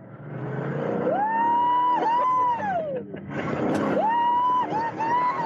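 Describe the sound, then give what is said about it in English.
A classic hot rod convertible roars along at 100 miles an hour with the top down. Its loud engine whine climbs, dips briefly at gear changes and climbs again over a constant rush of wind. “we got to ride in one of those classic hot rods with the top down. It was a convertible, and we got up to 100 miles an hour, and here is what it sounded like.”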